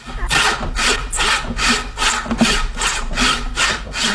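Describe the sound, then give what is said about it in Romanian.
Rhythmic sawing strokes as the sleeves are cut off a jacket: a loud, rasping back-and-forth repeated many times at a steady, even pace, with no talk over it. “Dacă zici tu să-i tăiem mânecile.”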